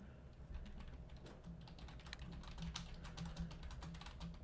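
Typing on a computer keyboard: a quiet, rapid stream of many light clicks, steady and continuous throughout, with no voices.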